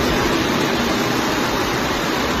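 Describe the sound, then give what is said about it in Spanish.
Floodwater torrent rushing down a city street in Santander after heavy rain, flowing toward the town hall square: a loud, steady, unbroken roar of churning water with no voices and no letup. “Así sonaba la riada de agua”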